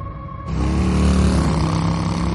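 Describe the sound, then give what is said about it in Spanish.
A motorcycle engine roars to life abruptly in a forest, as its rider sets off from behind the trees to follow a car on a nearby road. The engine then holds a loud, steady, rumbling drone. “En un bosque, el greñudo monta en una moto oculta tras los árboles. Observa un coche que circula por una carretera cercana. Enciende su faro y le sigue.”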